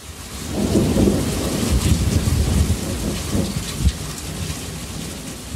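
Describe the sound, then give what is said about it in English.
A monsoon thunderstorm recorded from a back porch: heavy rain pours steadily while deep thunder rolls and rumbles underneath, loud and continuous, with one sharper surge in the middle and no voices. “The sound you hear is an actual recording of a monsoon from my dad's back porch.”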